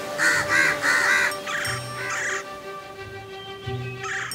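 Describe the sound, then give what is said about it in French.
Crows caw in a series of harsh, raspy calls, three close together at first and then more spaced out. “Elle appela tous les autres corbeaux”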